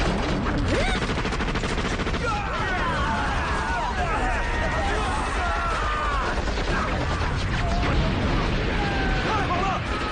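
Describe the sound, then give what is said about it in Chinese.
Gunfire rattles through a battle, likely from a machine gun. A dense, continuous clatter of shots fills the whole stretch at a steady, loud level, mixed with shouting voices. “敌人的火力很猛，注意掩护！”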